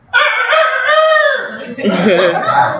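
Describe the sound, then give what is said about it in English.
A person vocally imitates a rooster crowing: a loud, drawn-out, tonal call that holds steady and then breaks into a rougher, warbling second part. “The nature of a rooster is to go cock-a-doodle-doo.”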